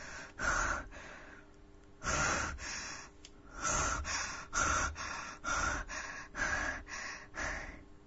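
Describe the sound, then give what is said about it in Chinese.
Rapid heavy breathing, a steady run of loud, rough gasping breaths repeating at short, regular intervals, with no speech. “侯龙涛开始缓慢地向仓库的大门退去，他的呼吸越来越急促”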